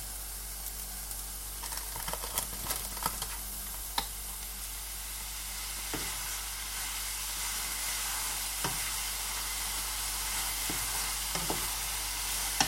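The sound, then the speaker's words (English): Minced meat browns in a pan with vegetables, giving a steady bright sizzle under a low constant hum, broken by scattered scraping clicks as the mince is stirred and broken up. “Now I'm just going to brown that meat.”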